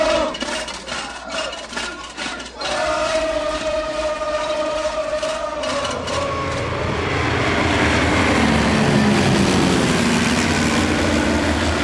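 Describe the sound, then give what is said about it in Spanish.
An airplane takes off: a steady engine whine jumps louder after a couple of seconds, then grows into a broad, loud roar that fills the second half. “y el 2018 decoló el avión, tomando carrera a las 23.59”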